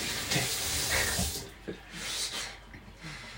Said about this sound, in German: Ich spüle die nochmal aus, die Tasse.